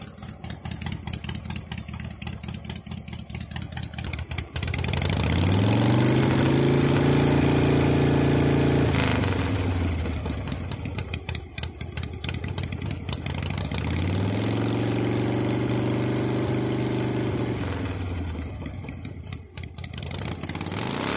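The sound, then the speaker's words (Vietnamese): Revving exhausts of modified Yamaha Exciter motorcycles at a night street race: two long, loud throttle surges with climbing engine pitch that then drops back, over a steady rumble of idling engines. “Tiếng nẹt bồ, tiếng Vega của những chiếc xe Exciter đã được độ đủ màu sắc,”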